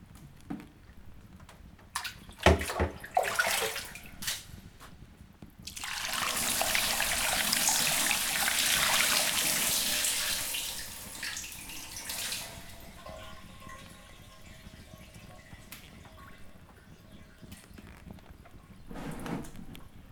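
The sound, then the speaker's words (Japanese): Water runs while shampoo is rinsed out of hair: a few short knocks and splashes, then a steady, loud rushing stream for several seconds that gradually thins and tapers, with one more brief splash near the end. “終わったからシャンプー流す。”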